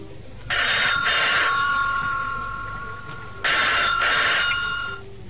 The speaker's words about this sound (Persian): باز دیدم زنگ میزنه مثل همیشه تلفن